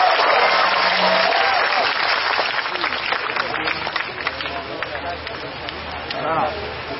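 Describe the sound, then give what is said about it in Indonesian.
Audience applause at an evening birthday celebration gathering, dense sustained clapping from a crowd that holds steady throughout with some voices mixed in, swelling slightly near the end. “Tepuk tangan untuk Mas Jiwo Tejo”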